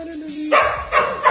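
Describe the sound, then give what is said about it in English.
A dog barks excitedly in a few short, sharp, yappy bursts after a brief moment. “My dog's just realized I'm here.”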